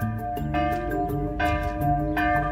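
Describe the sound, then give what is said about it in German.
Church bells ring out in slow, resonant strokes, about three clear strikes, each leaving a long ringing hum that overlaps the next. “dann läuten bei uns nicht nur die Glocken”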